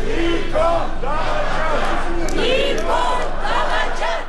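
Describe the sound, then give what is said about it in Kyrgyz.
Protesters in a Yerevan square shout and chant that Prime Minister Nikol Pashinyan is a traitor, a loud mass of overlapping raised voices that rises and falls in chanted bursts for the whole stretch. “Премьер-министр Никол Пашинянын кызматтан кетишин талап кылып жатат. Алар Никол чыккынчы деп кыйкырышууда.”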